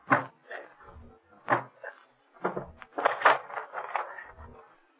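Wood being broken open as a radio-drama sound effect: several heavy knocks and splintering, creaking impacts in uneven bursts, bunching into a busier run of cracks and scrapes toward the end.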